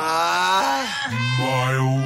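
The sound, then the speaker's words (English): A mild human groan, a drawn-out voiced moan heard alone and moderately loud. Its pitch sags partway through, then lifts and wavers toward the end. “Mild groan. There it is.”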